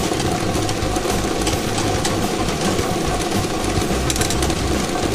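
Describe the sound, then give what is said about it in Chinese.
A lottery drawing machine whirs and rattles as it spins thirty numbered balls. The dense mechanical noise runs steady and loud from start to end. “摇奖机正式启动，3D 游戏的30个号码球在摇奖机当中飞快地旋转着”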